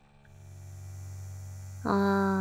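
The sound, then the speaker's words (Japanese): A small vibrator switches on abruptly partway through and gives a steady, bright electric buzz. Before it starts, only a low hum is heard. “ローター、スタート。”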